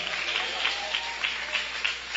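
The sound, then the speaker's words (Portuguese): Churchgoers clap their hands together in time for Jesus during a service, a fairly soft, even beat of unison claps at a brisk, steady pace. “Pode bater as palmas para Jesus.”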